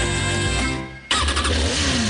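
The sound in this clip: A motorcycle engine revs with a steady, buzzing harmonic drone that briefly dips and quiets near the middle, then bursts back louder and rougher.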